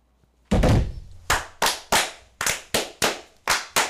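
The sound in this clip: Glasses thumped together on a table in a Masonic ceremonial toast: a heavy opening thud, then a rapid, fairly even series of sharp knocks, each with a quick decay, loud and with no talk over them.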